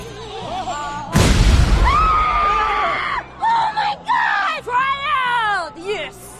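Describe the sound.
A bomb hidden in a cake explodes with a sudden, loud, rumbling blast that swells and then fades over about two seconds. High shrieks and whoops follow, rising and falling over the tail of the blast.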